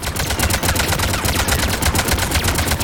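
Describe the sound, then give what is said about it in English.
Rapid automatic gunfire in a sci-fi shooter video game: loud, dense bursts of sharp shots fire continuously with no pause, one crack after another in a fast, steady rhythm. “We're putting bullet after bullet into her, but her shields just keep up.”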